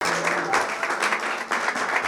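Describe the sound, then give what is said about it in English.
Congregation applauding during a church service: dense, steady clapping that fills the whole moment at an even loudness, with no talk over it. “Put your hands together for Jesus.”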